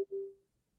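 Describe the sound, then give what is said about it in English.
A computer notification sound: one short, faint mid-pitched beep that rings for under half a second after a brief click, then fades into near silence. “That's the sound of my computer making sounds.”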